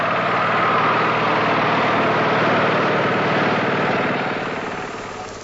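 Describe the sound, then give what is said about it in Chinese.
A vehicle engine runs as it drives off, a loud, steady rumbling drone that gradually fades toward the end. “哎，师傅，开车开车开车，我先走了啊！”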